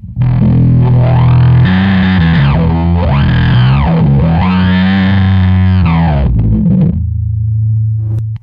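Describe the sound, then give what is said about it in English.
Bass guitar played through a mini bass wah pedal, its distorted low notes swept by the filter into vowel-like rising and falling arcs, several sweeps in a row, before settling onto a plain held low note. “And then next you've got the mini wah. Yeah, mini bass wah. Yeah. Let's hear that thing.”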